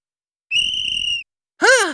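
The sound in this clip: A sports teacher blows a whistle: one steady, piercing high-pitched blast of under a second, followed by a short sound that rises and then falls in pitch.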